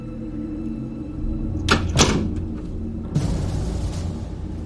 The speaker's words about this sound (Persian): در رو ببند، باید با هم حرف بزنیم.